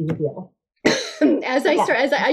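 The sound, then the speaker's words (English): A sudden cough and throat-clearing burst from someone drinking throat coat tea, sharp and loud after a brief silence, with talking just before and after it. “She said that as I was drinking throat coat tea, and I almost spit it right back into my microphone.”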